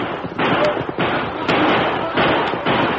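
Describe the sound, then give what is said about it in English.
Gunshots fired wildly into the air by a band of armed horsemen: a run of several loud, abrupt cracks following one another over a few seconds. “Band of armed horsemen broke cover and headed for the trail, firing wildly into the air.”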